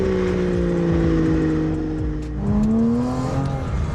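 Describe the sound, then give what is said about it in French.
A modified car's engine revs with a loud, throaty aftermarket exhaust, a continuous rumbling drone whose pitch sinks, dips midway, then climbs again as the throttle is reapplied. “Franchement, l'échappement là, c'est du grand kiff.”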